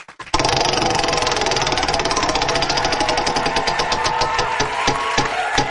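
Prize wheel being spun: a loud, rapid stream of ratcheting clicks over a noisy whir, the clicks gradually spacing out as the wheel slows.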